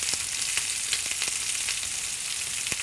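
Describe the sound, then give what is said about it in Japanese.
New potatoes sizzle steadily as they fry and are rolled in oil in a pan while browning, alongside mackerel and garlic, a dense crackling hiss with a few sharper pops throughout. “で、じゃがいもをあの転がしながら、あの焼き色をつけていきます。”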